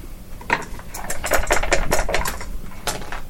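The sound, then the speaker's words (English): Two dice rattle and clatter across a table during a tabletop role-playing game, producing many rapid, dense clicks and knocks in a continuous burst of a few seconds, with no voices. “Wait, can you roll two discolored dice?”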